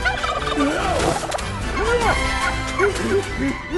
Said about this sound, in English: The turkeys fly everywhere, trying to escape as the villagers try to catch them.